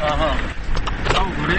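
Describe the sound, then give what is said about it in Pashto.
A car's low rumble as it drives over a rough, stony mountain road in Chapa Dara, with a man talking steadily over the continuous engine and road noise throughout. “طبیعي خبره ده، په موټر کې نو دلته تیږې هم شته دی او سر هم لګي کله یو طرف نه کله بل طرف نه.”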